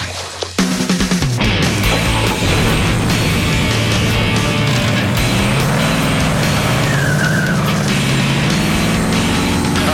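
A truck driving starts up abruptly, then a loud, steady engine roar and road rumble hold without pause for the rest of the stretch, with no voices.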